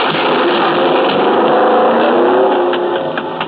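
A car engine running inside a garage, a loud, steady roar with a dense buzzing texture that stays even and eases slightly near the end.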